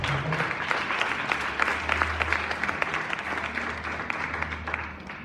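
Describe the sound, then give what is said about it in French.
Church audience applauding during a French-language service, dense sustained clapping throughout that eases slightly toward the end. “Est-ce que tu peux acclamer pour le Seigneur”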